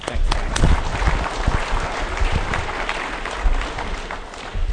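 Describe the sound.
Audience applause welcoming a speaker to a Christian talk: steady, dense clapping from many hands, loud and sustained throughout with no pauses.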